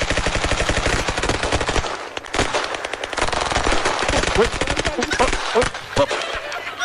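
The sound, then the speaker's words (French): Rapid gunfire cracks out in a tight group of shots at a target during a shooting competition, a fast, steady run of many loud reports with a brief break near the middle. “Très joli tir groupé de l'équipe américaine de ICE”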